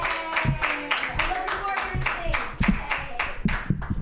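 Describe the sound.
Rhythmic hand claps from a small audience at an open mic comedy night, many quick, sharp claps in a steady stream, with a voice cheering over them.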